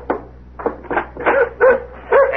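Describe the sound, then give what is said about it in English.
A dog barks at a door, wanting to be let in, in a quick run of short, sharp mid-pitched barks and yips. The barks come in an irregular rhythm, loud and clear with no voices over them. “Thought I'd forgot you, boy, huh? He's a nice dog. Yeah, he sure is.”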